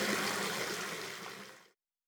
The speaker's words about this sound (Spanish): Nada, mamá. Nos estamos lavando las manos.